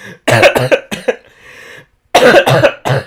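Someone coughs hard after a drink goes down the wrong way. Several harsh coughs come in two bursts with a short lull between them, loud and raspy, with no talk.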